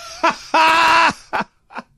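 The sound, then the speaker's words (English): A voice imitating a woman's loud snoring: a few rasping, groaning vocal bursts, with one long drawn-out snort in the middle between shorter ones, and a faint final grunt. “I did not remember her snoring like this.”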